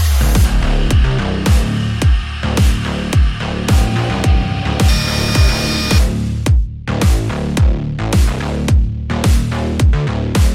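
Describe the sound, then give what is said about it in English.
A machine tool cuts steadily around a metal nut during a fine finishing pass, its many loud, evenly spaced cutting strikes repeating about twice a second over a continuous mechanical whir. “The tool locks into place and it's just going constantly around the part.”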